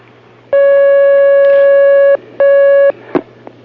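Telephone line tones as a call connects on a phone-in: a long, steady beep, a short pause, then a shorter beep of the same pitch, followed by a few faint clicks on the line.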